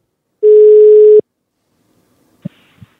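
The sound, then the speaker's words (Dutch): A steady telephone tone sounds while a call is being dialled, holding one even pitch for under a second before cutting off, followed later by two faint clicks on the line. “John Veskes, we gaan hem even bellen.”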